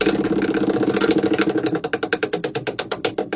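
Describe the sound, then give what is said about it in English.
A spinning prize wheel sound effect: a dense whirring blur that breaks into a steady run of sharp, evenly spaced ticks, loud and clear with no voices. “All right, let's spin tonight's wheel.”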